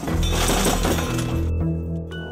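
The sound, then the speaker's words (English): Glass shattering as a piece of firewood is thrown through a sliding glass door: a loud, dense crash of breaking glass that gives way to a lingering ringing tail, fading toward the end. “To make it look like a robbery, she threw a piece of firewood through the sliding glass door.”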